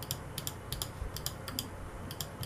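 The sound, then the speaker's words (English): Computer mouse clicking picked up by a condenser microphone: many quick, sharp, faint ticks in a brisk, slightly irregular rhythm over a low background hum. “I'm gonna click my mouse. Listen to this.”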